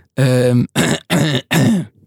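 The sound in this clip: Throat clearing from someone with a dry throat after a long stretch of talking: four short, rough voiced bursts in quick succession, loud and alone.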